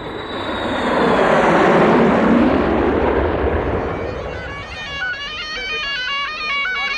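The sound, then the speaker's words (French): A passenger airplane takes off: a broad engine roar swells to a loud peak, then holds steady. In the second half, a warbling, repeating tonal pattern rises above the roar. “Nous allons décoller dans quelques instants.”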